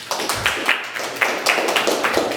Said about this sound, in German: Einen großen Applaus für die Mandy, bitteschön.